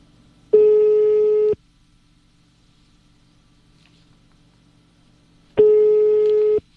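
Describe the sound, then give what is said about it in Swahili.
Ringback tone of a phone call to a radio phone-in, waiting for an answer: two long, steady, mid-pitched beeps about five seconds apart, loud and clear, with near silence between them. “Haya, tukingojea mshindi achukue simu.”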